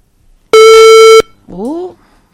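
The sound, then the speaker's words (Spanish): A single loud, steady electronic beep from a button, buzzy and rich, lasting well over half a second before cutting off sharply, followed by a brief voice-like sound. “No sé por qué pita de esta manera. Pero es el botón, ¿eh? Es el botón.”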